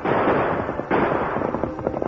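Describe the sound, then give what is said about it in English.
Gunshots fired by a fleeing rancher during a horseback chase sound as dense, crackling bursts of sharp pops. A thick rush of noise breaks off briefly and then resumes with many quick, uneven cracks. “the Lone Ranger rode on in spite of the bullets thrown at him by the fleeing rancher.”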